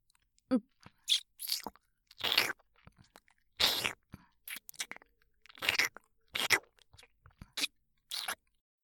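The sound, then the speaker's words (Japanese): Many wet smacking kiss sounds come in short, irregular bursts with brief pauses between them. They are soft and close, with no talking over them. “キスってこんなにも甘美なものなんだ。もっともっと欲しいよ。少しだけ少しだけ深くね。”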